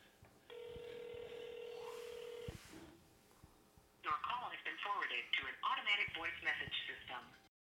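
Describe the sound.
A telephone call's ringing tone sounds as one long, steady electronic tone lasting about two seconds, followed after a short pause by people talking.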